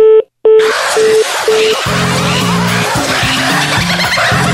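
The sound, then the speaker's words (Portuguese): Telephone beeps as a number is dialed for a prank call: a few short, steady mid-pitched tones over loud hissing noise, followed by a car's screeching skid that fills the rest. “Vamos ligar de novo aqui!”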